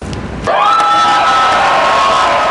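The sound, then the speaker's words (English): Construction workers cheer as Trump enters a room. After a short low murmur, loud whooping and shouting erupts and holds steady, with high sustained yells on top. “That is the sound of Trump's workers, okay, construction people and everybody, when Trump walked into the room.”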